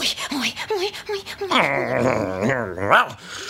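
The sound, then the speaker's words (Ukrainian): A person imitating a dog: talking gives way to a long, wavering growl and whine, loud and strongly voiced, rising and falling before it breaks off. “Пес”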